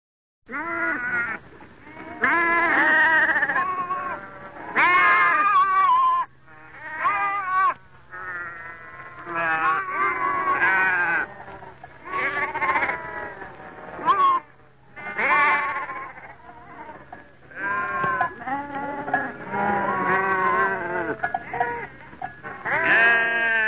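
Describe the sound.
Sheep tended by a shepherdess bleat many times over, loud wavering calls overlapping in irregular bursts, with a low steady drone running beneath part of the sequence.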